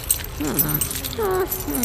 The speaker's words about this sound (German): Was ist das denn für ein riesiger Schlüsselbund? Damit schließe ich jetzt die Zellen auf, damit der Zucker hinein kann.